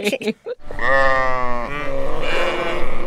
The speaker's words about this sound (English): the sound of the sheep means we made a little mistake